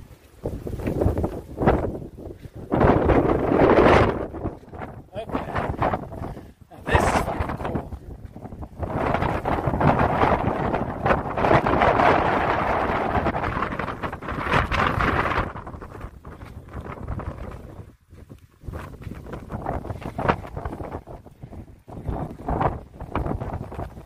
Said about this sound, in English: It's windy up here.